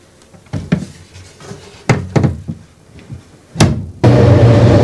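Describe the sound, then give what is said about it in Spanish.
Wooden thuds and knocks of a small cupboard door being handled and shut, a few sharp bumps spaced apart, before a sudden loud steady sound cuts in at the end. “esconde la caja en la estantería de la plancha y la oculta con la tabla. Luego cierra la puerta del armarito.”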